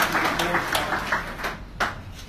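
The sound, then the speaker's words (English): Crowd applause rises at a football club gathering at Etihad Stadium, a dense, steady wash of clapping with a few louder bursts and voices mixed in. “can we give Jason Richardson a round of applause for the great job he does and the Birds and Cabin crew?”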